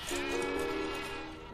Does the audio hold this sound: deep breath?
no